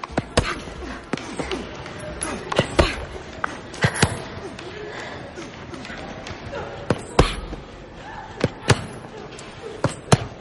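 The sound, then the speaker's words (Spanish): Bruised fists punching a training bag in a gym hall, many sharp irregular thuds and slaps standing out above a busy background of movement. “Varios jóvenes se entrenan en la nave. Tris golpea un saco con los puños magullados.”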